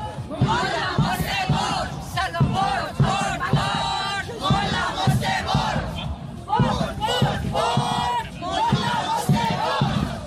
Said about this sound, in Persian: معترضان در راهپیمایی حدود یک ساعت در خیابان‌های مرکزی مالمو حرکت کردند و با شعارهایی علیه قطعی اینترنت، اعدام و سرکوب حکومتی تلاش کردند صدای مردم ایران را به افکار عمومی سوئد برسانند.